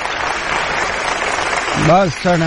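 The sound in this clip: Applause for young men who have just sung, a steady wash of clapping that swells slightly before a voice begins speaking over it near the end.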